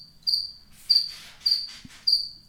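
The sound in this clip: A cricket chirps in four evenly spaced, high-pitched trills, each a shrill burst that fades quickly, with faint rustling noise between them.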